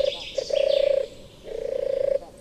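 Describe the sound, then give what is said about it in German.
Turtle dove cooing: low, purring trills that stay level in pitch, with two drawn-out phrases and a brief shorter one at the start, sounding clearly against faint background noise. “Im Reich der Taube braucht es dafür nur 4 Buchstaben. T-U-R-R. Tur.”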